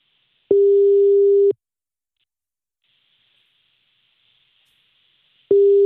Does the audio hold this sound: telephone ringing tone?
yes